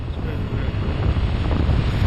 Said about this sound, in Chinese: 现在开始起外冒风了， 雪原上起风了，天地的界限开始模糊，这代表白毛风要来